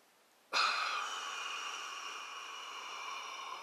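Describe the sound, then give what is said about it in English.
A long chest breath drawn in through the nose during a breathing exercise begins abruptly and holds as a steady, airy hiss for about three seconds, heard alone. “Don't do what I just did. I just did chest breath.”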